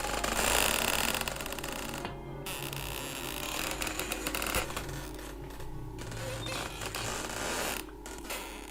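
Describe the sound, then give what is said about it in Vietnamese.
A door hinge in a room at night creaks in long, grating, uneven squeaks over a low steady hum, with no voices. “tiếng bản lề nơi căn phòng vẫn vang lên trong đêm như âm thanh khó chịu. Nó cứ cọt cà cọt kẹt, cọt cà cọt kẹt.”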